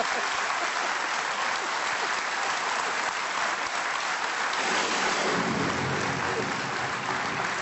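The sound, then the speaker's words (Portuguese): Heavy rain from a thunderstorm pours down in a steady, dense roaring hiss that stays even and unbroken throughout. “a chuvada brutal que está a cair e que faz com que este som, que o som do estúdio fique um bocado... Aí está ela, em grande.”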